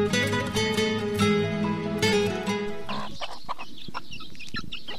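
Chickens cluck loudly around a household where they have been getting into the vegetables. Repeated squawking clucks fill the first three seconds, then give way to softer, scattered scratchy noise.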